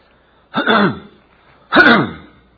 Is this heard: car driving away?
no